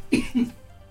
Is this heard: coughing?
yes

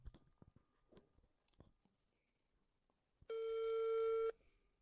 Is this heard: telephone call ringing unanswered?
yes

